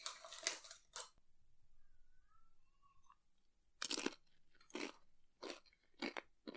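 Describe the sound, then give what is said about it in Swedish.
Crunching of tortilla chips used to scoop up a Mexican-style mince casserole: loud, crisp bites and chews in two clusters separated by a quiet pause. “han brukar äta mexikoröran på det här sättet, att han tar och skopar upp med chipset. Så ska du ta det ett smakprov?”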